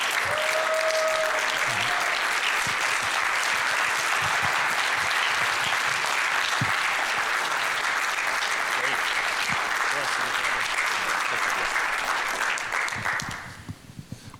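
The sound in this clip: An audience stands and applauds to welcome a guest speaker. Steady, thick clapping holds for about thirteen seconds, then tapers off quickly to scattered claps and stops.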